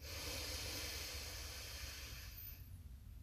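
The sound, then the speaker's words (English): A big deep breath drawn in during a guided breathing exercise: a soft, steady, airy hiss that lasts about two and a half seconds, then fades. It is faint and heard alone. “Taking a big deep breath in.”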